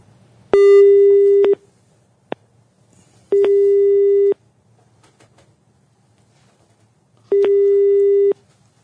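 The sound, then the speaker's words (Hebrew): An unanswered telephone call rings out as three steady, one-second ringback tones separated by long silent gaps, with a single faint click between the first two. “השיחה מועברת לתא קולי. לא עונה, לא עונה אברהם.”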